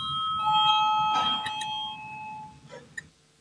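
Electric voting bell rung in a parliament chamber, a sustained bright ringing tone lasting about two seconds before it fades, followed by a couple of faint clicks.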